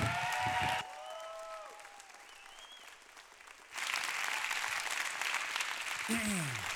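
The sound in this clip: Church audience at Bethesda applauding as they rise to their feet to welcome a guest pastor: steady, dense clapping with a few voices mixed in. It eases off for a few seconds, then swells back louder and fuller toward the end.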